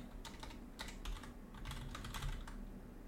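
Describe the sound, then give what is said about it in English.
Typing on a computer keyboard: fast, faint keystrokes clatter in irregular bursts throughout, with no voices. “Oh, my God. I can't type. There we go.”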